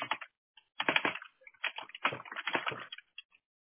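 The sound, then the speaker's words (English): Typing a search on a computer keyboard: faint, quick bursts of clicking keystrokes come in short irregular runs with brief pauses, alone without speech. “And I'm going to type in bathroom remodeling, okay? Give me 1 second.”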